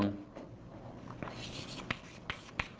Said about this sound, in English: to get the causal structure, let's write it down in terms of conformal time